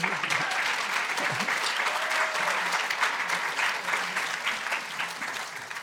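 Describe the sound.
A crowd claps to welcome a blind singer on stage, producing a continuous, full-bodied roar of applause that stays level and sustained from start to finish, without any voices breaking through.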